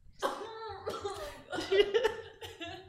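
Coughs during a tabletop role-playing game session: a few short, voiced bursts in a loose irregular rhythm, mingled with chuckling sounds, fairly quiet.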